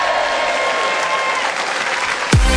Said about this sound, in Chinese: 来，再次用掌声和欢呼声音